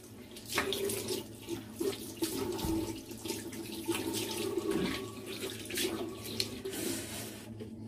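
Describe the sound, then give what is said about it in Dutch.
Tap water runs steadily while something is rinsed under it, a continuous rushing flow with uneven splashing that rises and dips, no talking. “Nog even afspoelen.”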